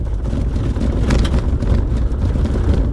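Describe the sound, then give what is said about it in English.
A car drives along a dirt road, giving a steady, loud low rumble of tyres and engine with a faint rattling texture and no talking. “Currently driving on a dirt road.”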